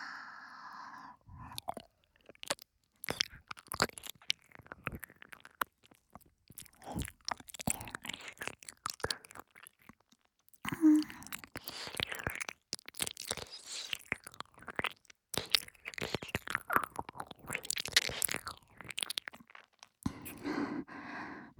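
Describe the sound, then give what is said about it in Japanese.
Quiet ASMR ear-licking mouth sounds: many close, wet clicks, smacks and slurps in irregular bursts, with a brief lull near the middle. “お兄さんのお耳、舐めさせていただきますわね。”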